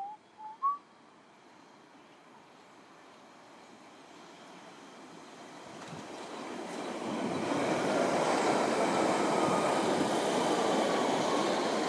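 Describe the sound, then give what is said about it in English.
A train approaching and passing in the opposite direction at a windy station: a broad rushing roar swells from about halfway through and holds loud to the end, after a few brief high whistle-like chirps at the start. “There's a train coming in the other direction.”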